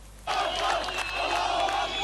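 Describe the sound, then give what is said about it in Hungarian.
A protesting crowd in the streets of Cairo cheers soldiers sent in to patrol; a dense roar of many voices starts abruptly and stays steady and loud throughout. “Újjongva fogadta a tüntető tömeg az utcákra vezényelt katonákat Kairóban.”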